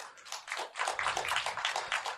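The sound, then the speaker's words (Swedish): Applause from the audience at a live special-evening comedy show, a dense, low-level patter of many clapping hands that swells after a brief start and holds steady to the end. “Applådera ni som inte har varit här förut.”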